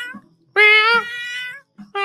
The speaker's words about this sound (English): That's the cat moaning